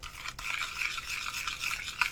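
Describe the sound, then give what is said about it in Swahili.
Stirring of 3 grams of thin-sliced dried bonito flakes into about 200 ml of water in a pot: a continuous soft scraping swish with an even, steady texture. “Ongeza gramu 3 za samaki bonito mkavu aliyekatwa vipande vyembamba vyembamba na ukoroge kila kitu kwa pamoja.”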